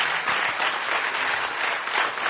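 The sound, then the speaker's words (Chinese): A church audience applauds: dense, steady clapping from many hands, loud and continuous for a couple of seconds, with no talk over it. “我哋俾啲掌声耶稣，哈利路亚！”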